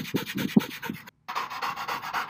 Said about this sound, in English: brought to you by dog noises